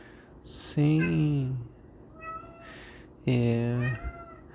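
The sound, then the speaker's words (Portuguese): A voice imitating a cat's meow gives two loud, drawn-out, low-pitched calls. A fainter, higher meow sits between them. “Gato miou, já me distraiu.”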